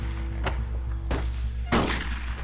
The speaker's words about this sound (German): Doch die Schüsse hörten nicht auf. Die beiden verschossen so viel Munition wie eine ganze Kompanie.